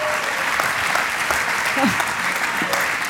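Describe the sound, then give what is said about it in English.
Church audience giving a standing ovation, a thick, sustained wash of clapping hands with a voice briefly rising through the applause. “A standing ovation over there.”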